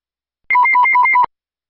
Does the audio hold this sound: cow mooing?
no